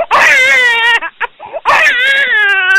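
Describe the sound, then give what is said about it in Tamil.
An infant wails in two long, high, strained cries separated by a short pause filled with brief whimpering sobs. “கை குழந்தையான பிரபஞ்சன் வேறு அழுது கொண்டே இருந்தான்.”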